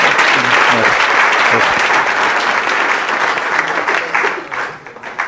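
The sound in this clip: Audience applause at a session with slides: dense, steady clapping from many hands that holds for about five seconds, then thins and softens toward the end.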